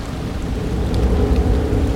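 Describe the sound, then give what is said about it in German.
Rain falling in a forest: a continuous, even hiss of rain with a low rumbling undertone, steady throughout and without any voices. “es regnet. Und ich habe keinen Schirm dabei.”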